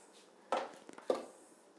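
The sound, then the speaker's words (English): A knife chops rinsed sweet peppers while making homemade pizza: two crisp, solid chopping strikes about half a second apart, with a few faint small taps between them. “We bought this beautiful bag of sweet peppers, so I'm just going to chop them up and spread them on the pizza.”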